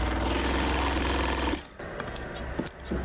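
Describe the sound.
A sewing machine stitching a pakol hat in a Kunar shop gives a steady, dense mechanical whirr for about a second and a half, then stops, leaving lighter clatter and handling noise.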